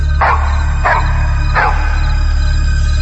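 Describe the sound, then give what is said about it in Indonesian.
Dog barking: three sharp barks in quick succession over a steady low hum, which then continues alone. “ini ada suara anjing menggonggong terus, serem deh”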